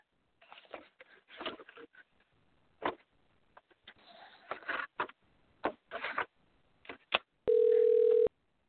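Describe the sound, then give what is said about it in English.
Telephone sounds as a call is dialed: irregular clicks and clattering handling noises, then one loud, steady ring tone near the end. “bear with me for just a second while I dial him up”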